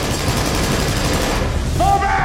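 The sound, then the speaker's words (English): Rapid gunfire in an indoor shootout in a compound hallway: dense, overlapping shots form a loud, continuous barrage, and a high ringing tone appears near the end. “Face hardened, David resumes fire.”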